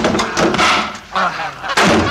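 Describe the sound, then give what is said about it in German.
A goose gives several loud, harsh honks in quick, uneven bursts, each a nasal blare with short pauses between them. “Die blöde Gans, wir kommen! Vorsicht! Die blöde Gans!”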